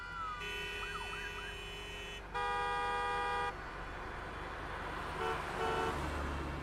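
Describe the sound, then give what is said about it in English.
Car horns honk in a traffic jam: two long sustained blasts, the second louder, then a few short beeps near the end. A wavering siren-like tone sounds early on over a steady traffic rumble. “They suddenly find themselves in a traffic jam.”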